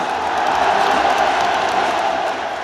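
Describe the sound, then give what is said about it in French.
A stadium crowd at Roazhon Park in Rennes roars and cheers for Paul Pogba as he enters the pitch, a loud, steady wash of massed voices with no clear breaks. “Le Roizen Park l'acclame comme rarement un joueur adverse ne l'a été.”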